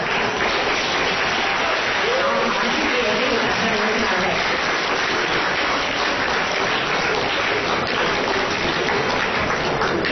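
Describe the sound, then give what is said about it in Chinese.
Audience applause fills the hall after a Chinese comic performance adapted from a traditional piece. The clapping is dense and steady, and it stays loud and unbroken for about ten seconds. “谢谢大家掌声， 感谢大家。”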